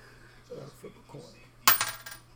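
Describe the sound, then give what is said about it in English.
A coin is flipped and lands with a single bright metallic clink and a short rattle, after a few faint soft sounds over a low steady hum. “Flip a coin.”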